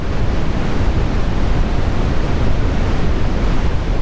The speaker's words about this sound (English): something that is a little bit different from that is brown or red noise, which sounds like this